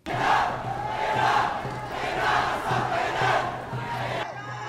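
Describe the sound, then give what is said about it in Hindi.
Protesters chant slogans against Trump in Manila during his ASEAN summit visit. The loud crowd chant rises and falls in a steady rhythm of repeated phrases and breaks off near the end. “प्रदर्शनकारी नारे लगा रहे हैं कि Trump Philippines के लोगों के दोस्त नहीं हैं, वो युद्ध का समर्थन करते हैं और वो आर्थिक प्रतिबंध लगाते हैं।”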